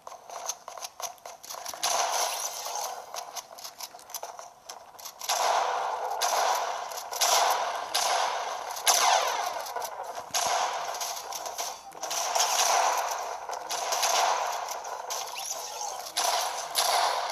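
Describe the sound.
Gunfire in a shooting video game, with many rapid, sharp shots in bursts over a steady wash of game noise, loud and continuous throughout.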